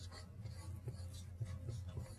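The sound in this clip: Faint scratching of writing on a board during a physics lecture, with soft, irregular strokes and low taps that stay quiet throughout.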